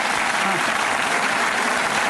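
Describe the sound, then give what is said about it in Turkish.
Applause for an image shown during a presentation: thick, even, loud clapping that holds steady for the whole stretch, with faint voices talking underneath. “Bir alkış gelebilir yani bu görsele.”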